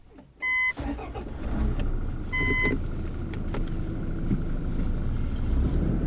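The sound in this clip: A vehicle with a 6-speed automatic gearbox, in Invincible trim, pulls away and drives on. Two short electronic beeps sound first, then a low, steady engine rumble that holds as it rolls along.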